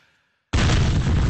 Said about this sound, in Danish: Og så til sidst skal der være en bombe.